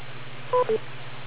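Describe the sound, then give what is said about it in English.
Two short electronic beeps sound in quick succession over an amateur radio link, each a clear steady tone, against a constant low hum and hiss. “Wait for the beep.”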